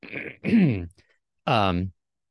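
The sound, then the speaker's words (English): Throat clearing in a small room: a few gruff, voiced bursts, the middle one sliding down in pitch, then a short pause before a final rougher rasp. “I'm not looking at you, Meg. I'm just clearing my throat.”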